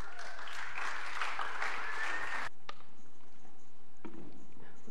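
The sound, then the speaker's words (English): An audience applauds and whistles in welcome as performers come up to the front at an evening event. Loud, dense clapping carries a high, slightly rising whistle, then cuts off abruptly, leaving faint murmur and a few scattered claps. “Oh, I've been waiting for so long to get those whistles, so thanks, guys.”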